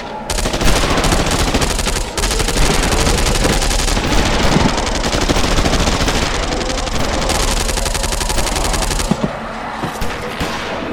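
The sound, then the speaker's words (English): Rapid video game gunfire rattles almost without pause, a dense, loud automatic barrage that holds steady for about nine seconds before thinning out near the end. “Open fire!”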